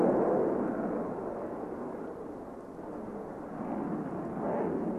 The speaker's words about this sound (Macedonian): Lift off.